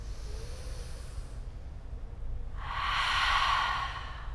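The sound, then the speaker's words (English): A group of people breathes in together through open mouths, a soft, airy hiss that swells clearly in the latter part after quieter breath noise, with no talking. “Wherever you are, breathe in together. Open mouth. Again.”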